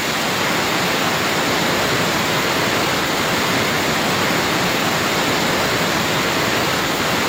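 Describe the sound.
Steady, roaring rush of a waterfall at Salto del Nervión, swollen after heavy rains, a dense and loud wash of falling water that continues unbroken throughout.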